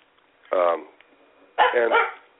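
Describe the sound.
Two dog barks, each a short, harmonic bow-wow about a second apart, the second slightly longer and rougher, with near silence around them.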